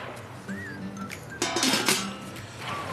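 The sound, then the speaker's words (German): A lid goes down on a fish smoker loaded with salted fish, giving a short metallic clatter that stands out over a faint steady background. “Deckel drauf.”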